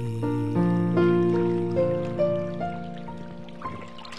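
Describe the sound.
Babbling, trickling water runs beneath simple, clean piano and a gentle male voice in a soft cover of a love song originally from Thailand, with sustained melodic tones holding over the steady flow.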